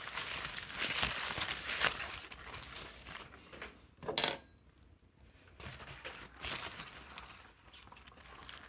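Cutlery clinks faintly while food is cut up, with a couple of bright metallic clinks over soft rustling and scraping.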